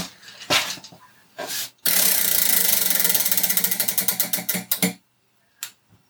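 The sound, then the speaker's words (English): A prize wheel ticks as it spins: after a few louder knocks, a rapid run of clicks gradually slows until it stops, followed by one more knock. “So let's give it a spin, shall we? My magnificent wheel.”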